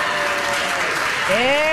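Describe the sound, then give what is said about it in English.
An audience claps steadily in a dense patter, and a voice speaks over the applause toward the end. “even if people who are clapping in the audience don't call themselves feminists”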